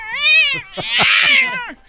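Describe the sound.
A human voice imitates a cat: a drawn-out, wavering meow, then a harsher, hissing yowl with a tonal tail, as if the cat is lashing out.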